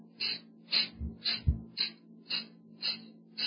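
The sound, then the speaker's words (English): Air is forced out through the nostrils in bursts for a cleansing breath, with the stomach pushed in under the ribs. Short, sharp, hissing exhales repeat in a steady, quick rhythm, with no talk. “So what I'm doing is I'm just pushing underneath my ribs. I'm pushing on my stomach, and I'm forcing air out of my nostrils.”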